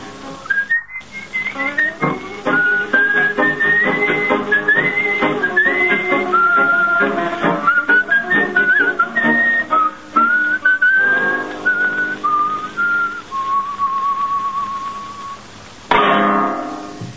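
A man whistles a milonga tune, a clear, continuous melody of many gliding and held notes that settles into a long sustained final tone.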